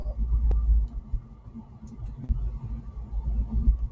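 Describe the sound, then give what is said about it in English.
Low, steady engine rumble of a car driving on the road, a continuous deep drone with a few soft bumps and swells in loudness. “we are driving right now”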